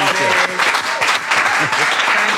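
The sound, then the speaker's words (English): Audience applause for a guest at the end of an interview: a dense, loud burst of clapping, with voices talking over it. “Round of applause for guest Jay Blaze.”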